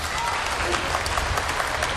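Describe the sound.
Audience applause at a live comedy performance, a dense, steady wash of clapping that holds at an even level for the full two seconds.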